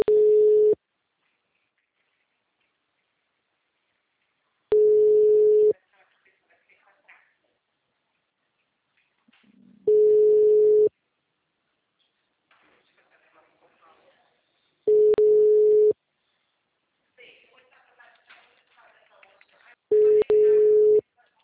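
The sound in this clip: Telephone ringback tone while a call waits to be answered: five long, steady, mid-pitched tones, each about a second long and evenly spaced about five seconds apart, with faint scattered sounds in the gaps.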